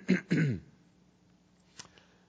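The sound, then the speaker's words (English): A man clears his throat twice in quick rasping bursts at a microphone before addressing a small church audience, followed by a faint short click-like sound in the quiet afterward. “He quietly steps up to the microphone of his little congregation in Palestine and he clears his throat and he says,”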